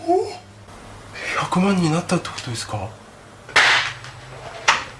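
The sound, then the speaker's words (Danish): A small confetti cannon fires at a man's head, giving a sharp pop followed by a second burst, with voices talking throughout. “Og i stedet for at svare ham, så fyrer de endnu en lille konfettikanon af i hovedet på ham.”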